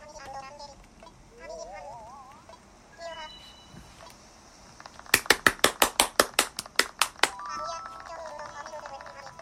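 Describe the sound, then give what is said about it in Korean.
A quick run of sharp, evenly spaced hand claps given as a show of approval, bursting out briefly after some soft electronic chirps and tones, then dying away. “찬성이면 박수를 쳐달래 어떻게 해야 되는 거지? 아 잠깐만 뭐 준비를 해야 돼 나도 박수 쳐야 되나?”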